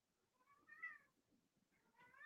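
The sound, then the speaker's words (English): A pet cat meowing, two faint, high, plaintive meows separated by a short pause, with no talk. “That's my cat.”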